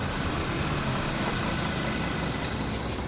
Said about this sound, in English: They pull up the driveway, their headlights shining between the muscle car and the pickup truck as they park behind the other vehicles.